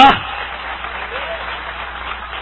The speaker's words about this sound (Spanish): Si es para Dios, dale fuerte ese aplauso.